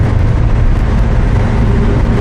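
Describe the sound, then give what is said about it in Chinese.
Car engine revving hard at full throttle, the pedal floored while the car strains, a steady loud low roar with dense rumble and no breaks. “踩到底吧，油门， 已经到底了， 再快点， 不行了，到底了，车都快散了。”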